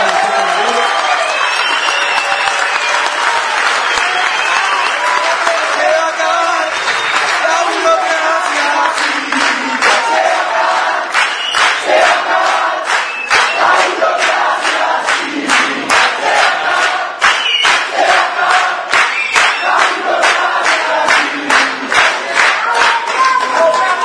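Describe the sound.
Loud audience applause and cheering fill a political presentation event, a dense, unbroken roar of clapping mixed with shouts and crowd voices that stays strong for the full twenty-four seconds.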